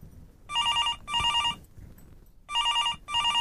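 A telephone rings for an incoming call in two cycles of trilling double rings, each pair of bursts followed by a short pause, clear and fairly loud.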